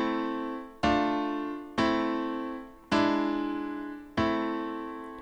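Minor-key chord progression with a raised seventh, played as five sustained struck chords at an even, unhurried pace, each ringing out and fading before the next.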